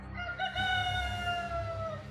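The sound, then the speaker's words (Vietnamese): A rooster gives a single long, drawn-out crow, a fairly quiet harmonic call held steady over a low background rumble. “chờ tiếng gà trống gáy và tiếng chim hót líu lo bên ngoài báo hiệu trời sáng.”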